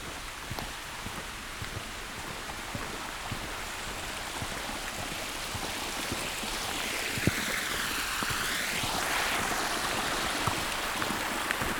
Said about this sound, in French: des cascades qui s'écoulent